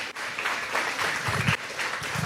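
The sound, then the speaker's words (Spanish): An audience applauds at a religious gathering, a steady, dense wash of clapping that continues without a break at a fairly soft level. “Un aplauso para ustedes mismos, por favor.”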